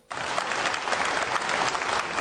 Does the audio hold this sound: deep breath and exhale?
no